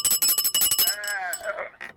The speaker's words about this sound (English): Let me ring our bell for you.